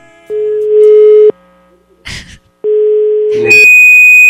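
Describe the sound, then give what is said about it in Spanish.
Telephone call tones while a number is dialed: two steady low tones separated by a short noisy burst, then a higher, sharper beep at the end. “Otra vez vamos a marcar otra vez en estos momentos.”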